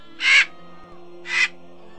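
A raven caws twice, two harsh, loud calls about a second apart, with a faint low steady hum beneath.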